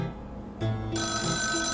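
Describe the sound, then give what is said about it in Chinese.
A mobile phone rings in a cinema: bright electronic ringtone notes begin after a short low murmur and step up into a sustained, moderately loud melodic ringing that continues to the end. “手机要关静音了，不然这样会吵到别人。”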